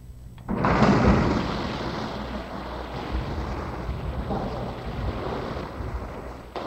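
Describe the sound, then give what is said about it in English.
Divers splash in an indoor swimming pool, a broad roaring wash of water that starts abruptly, is loudest at first, holds steady and then cuts off. “That's the sound of divers splashing in the YMCA pool.”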